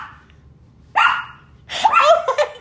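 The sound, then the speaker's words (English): A dog barks in two bursts: a short sharp yelp, then after a brief pause a longer, louder run of rough barks. No one talks over it. “So the dog is barking.”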